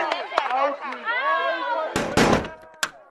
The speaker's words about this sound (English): Hey, stop it! What do you think you're doing, huh? You are not allowed to close those windows. Open them again.